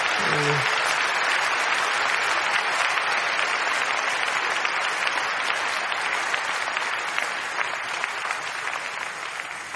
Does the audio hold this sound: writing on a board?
no